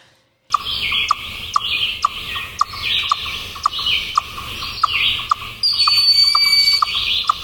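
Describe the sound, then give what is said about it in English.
A western chipmunk calling: many sharp, high, bird-like chirps repeating in a steady rhythm, loud and clear with no talk over them. “This is a western chipmunk, familiar to anyone who has ever unwrapped a sandwich while hiking.”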